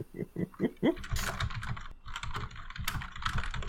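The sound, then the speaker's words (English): Rapid typing on a computer keyboard to compose a message, with dense clattering keystrokes running steadily throughout at an even, fairly loud level. “Okay, hang on a second. I have to compose this one.”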